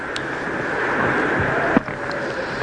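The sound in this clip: Wind and storm noise on a dark night: a steady, dense rushing roar that holds at an even level throughout, with one brief thump partway through and no voices.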